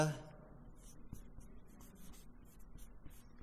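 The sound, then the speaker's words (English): A marker squeaks across a dry erase board, writing notes in many quick, thin, high-pitched strokes with soft rubbing in between. “And put a few notes up here on the dry erase.”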